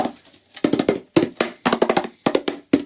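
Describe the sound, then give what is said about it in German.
Handling a sealed metal tea tin printed with the Union Jack, producing many irregular taps and knocks in quick bursts, fairly loud, with short pauses between them. “schöne Blechdose mit dem Union Jack drauf und drinnen befindet sich Tee. Lass ich jetzt mal aufmachen. Die ist verschweißt.”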